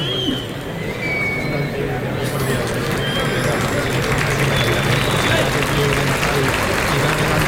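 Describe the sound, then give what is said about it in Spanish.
A bullfight crowd applauds matador Víctor Hernández with continuous, dense clapping that holds steady throughout, while voices talk over it. “El público que anima a Víctor Hernández.”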